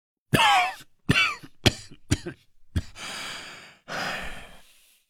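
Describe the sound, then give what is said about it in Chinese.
Several dry coughs from an emperor in a historical costume drama: five short, sharp bursts in quick succession, then two longer, raspy, breathy exhales, with no talking. “咳了数声后问道”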